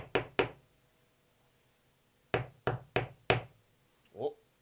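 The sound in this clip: Knocking on a front door: two sharp raps, a pause, then four more in quick succession, crisp and fairly loud against a quiet background.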